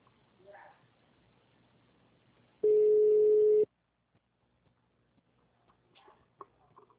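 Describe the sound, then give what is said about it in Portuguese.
Steady electronic tone of about one second as a telephone call is transferred to an extension. Flat and mid-pitched, it stands alone between faint background murmur and small clicks. “Mas eu vou te transferir para o ramal dele, que esse horário ele ainda está na sala.”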